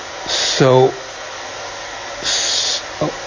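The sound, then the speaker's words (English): A vacuum cleaner sucking up dust gives a steady, whooshing hiss that runs throughout. Brief vocal sounds and a couple of louder airy bursts rise over it. “I will try then to steer the vacuum with one hand, getting rid of all the dust here.”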